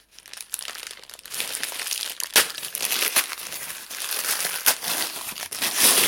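Crinkling and rustling of a stocking-like sleeve being pulled off a 2021 wine bottle: a continuous crumpling texture with a few sharper crackles standing out, fairly loud and with no talk over it.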